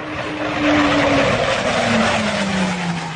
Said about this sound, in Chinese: 在巨大的轰鸣声中，飞行员胡浩宇和战友们驾驶歼20战机加速升空。